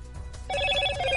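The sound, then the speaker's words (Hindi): A Motorola smartphone ringtone: after a brief low rumble, bright sustained melodic tones start about halfway through and ring steadily to the end. “Hello motto, Motorola Bharat का सबसे अच्छा 5G smartphone brand.”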